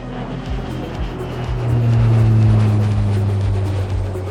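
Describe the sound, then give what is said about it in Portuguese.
A private jet taking off, as a sound effect: a loud, steady engine roar with a low, pulsing drone and a tonal whine that swells in the middle. “Aperte os cintos, deixe o seu assento na posição vertical e verifique se a bandeja tá bem presa, porque é hora do nosso jatinho decolar.”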